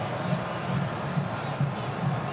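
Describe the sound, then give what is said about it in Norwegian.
A stadium crowd makes a steady, dense roar during a football match between Colombia and Congo in Guadalajara. Soft swells rise and fall throughout, with no single outburst. “Musikken spiller, publikum jubler”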